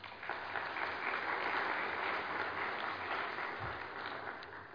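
An audience claps to welcome a couple introduced to members and friends. Many hands make a dense, even patter that holds at a steady level for the whole stretch, with no talk over it.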